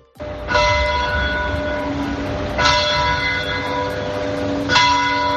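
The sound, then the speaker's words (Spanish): An 1897 town clock in Morata, twin of the Puerta del Sol clock, strikes its bell three times at even intervals of about two seconds. Each loud, bright, tonal clang rings on and overlaps the next strike. “allí se encuentra un reloj, considéralo el hermano gemelo del de la Puerta del Sol. Suena así.”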